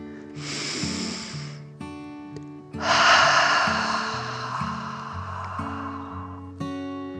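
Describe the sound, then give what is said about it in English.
A dragon breathing deeply, two long, slow, loud breaths with a rough, snorting hiss, the second longer and heavier, rising over a calm musical backing. “With another breath, the dragon calmed.”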